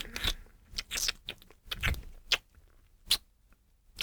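Crunchy chewing of slightly salty chestnuts comes as a series of faint, irregular crackly bites and grinding crunches, separated by quiet pauses, with no talking.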